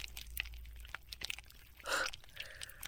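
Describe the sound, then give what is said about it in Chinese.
Someone chewing Viagra pills makes faint, quiet crunching with scattered sharp clicks and one louder grinding crunch near the end. “喂，你在吃什么呢？伟哥，”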